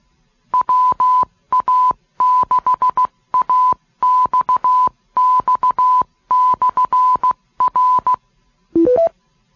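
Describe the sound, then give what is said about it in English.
Telephone keypad tones entering star 2 while programming an ID message on a repeater controller: many loud, sharp touch-tone bursts in quick clusters, ending with a short three-note beep stepping upward. “To hear the whole message before writing it into memory, enter star 2.”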